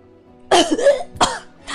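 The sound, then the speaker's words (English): A person imitates a wounded character coughing up blood during a role-playing game session. There are two harsh, throaty coughs: the first is longer and rougher, the second short and sharp. “they cough up some blood”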